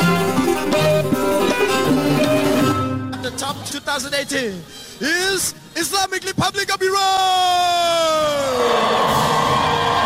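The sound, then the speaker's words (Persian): Iranian women's futsal players cheering and celebrating: loud, high-pitched overlapping shouts, whoops and yells, a brief choppy dip, then a sustained chorus of voices. “این صدای هلهله و شادمانی بازیکنان فوتسال زن ایرانی است”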